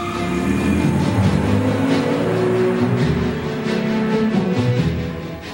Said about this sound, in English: He gets into his car.